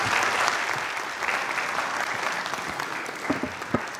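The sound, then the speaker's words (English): A church audience gives a round of applause after a young child's reading, a steady, even clapping that holds for the whole stretch, with a few sharper claps standing out near the end. “Thank you, William. Let's give William a round of applause.”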